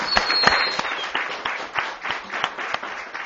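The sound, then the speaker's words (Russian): An audience claps in a loose, scattered way. Individual hand claps pop irregularly at a moderate level rather than forming a full, steady burst of applause. “Не, имеется в виду, что сначала, сейчас мы тишина, а потом похлопаем.”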